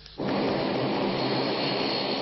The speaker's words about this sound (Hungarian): Ez a Q400-as. A pilóták szerint a Malév flotta a legrondább repülője